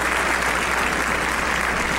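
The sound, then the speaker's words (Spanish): Dense applause, as a sound effect, fills the whole two seconds with steady, even clapping at constant loudness and no voices above it. “Bueno, imagínense el aplauso. Ahí está.”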